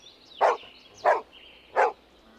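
A farm dog gives three sharp, evenly spaced barks, each bark clear and bright, with quiet gaps between them.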